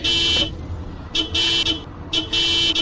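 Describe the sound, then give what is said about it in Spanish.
Car horns honking in street traffic: three loud, buzzy blasts separated by brief pauses, the middle one the longest. “Basta ya de locos pitando en las calles, contaminando aún más nuestro medio ambiente.”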